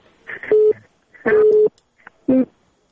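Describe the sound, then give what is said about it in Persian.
Telephone line tones as a caller's call to a radio studio drops out: three steady mid-pitched beeps with uneven gaps, the first two longer and the last one short. “تماس ما با این شنونده قطع شد.”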